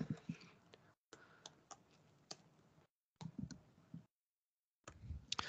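Typing on a computer keyboard: quiet, rapid key clicks in short bursts separated by brief pauses of silence.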